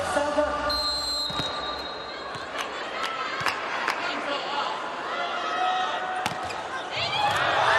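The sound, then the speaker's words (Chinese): Ball strikes from a women's volleyball match involving China's team, including an ace serve: several sharp impacts punctuate steady, loud crowd noise. “好发球，王悦发球直接得分。”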